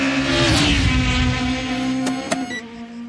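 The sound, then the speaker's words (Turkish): A white taxi speeding at 306 km/h gives a steady, loud, droning engine whine with strong harmonic tones, followed near the end by a couple of sharp ticks. “Beyaz bir taksi, saatte 306 kilometre ile gidiyor.”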